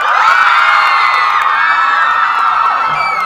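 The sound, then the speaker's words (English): An audience screams and cheers while welcoming an actor and filmmakers: a loud, unbroken wall of high-pitched shrieks and whoops that holds steady to the end. “Did you hear all this screaming going on?”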